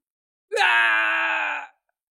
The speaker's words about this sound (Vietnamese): Đột nhiên tiếng kêu thảm thiết thê lương truyền tới, ở bên ngoài mấy chục dặm có tu sĩ sợ hãi hét lớn.